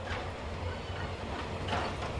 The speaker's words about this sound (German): Die Züge fahren unregelmäßig und langsam.